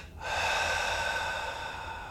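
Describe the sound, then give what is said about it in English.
Air drawn sharply in through the nostrils: an abrupt, loud hissing nasal inhale that holds steady and slowly tapers off, heard alone without talk. “And now a double inhale through the nostrils. Hold at the top, squeeze up every muscle that you have. And then release.”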